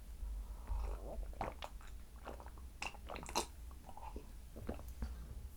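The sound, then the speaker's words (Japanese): Sips of black tea that has gone cold: quiet, wet mouth sounds and soft swallows, with a few small clicks spread across a faint, low background. “ちょっと紅茶を飲みます。冷えてる、寒い。”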